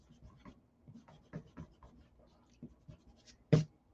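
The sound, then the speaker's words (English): Scratchy strokes of a drawing tool dragged across paper during expressive figure drawing: many short, faint rasps in an uneven rhythm, ending in one harsh, much louder stroke. “And this I need really harsh. This is probably the sharpest stroke I'm going to do in the entire drawing.”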